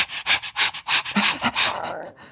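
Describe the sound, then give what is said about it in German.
A human voice imitates panting with a quick, even run of loud, breathy huffs, about seven in a row, then slows into a softer, fading trailing breath. “Und dann gibt's auch dieses geile Hecheln”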